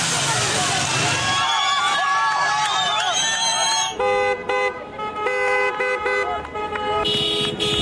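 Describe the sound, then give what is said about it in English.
Street protest over soaring fuel and energy costs: loud crowd noise with car horns honking, including short toots and then longer, sustained horn blasts toward the end. “Here's the sound of some of those protests worldwide.”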